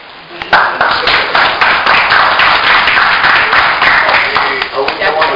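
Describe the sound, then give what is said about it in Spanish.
Applause from an audience at a community education session: dense, steady clapping fills nearly the whole clip after a brief quiet start, with voices mixed in underneath. “Entonces mis aplausos para él.”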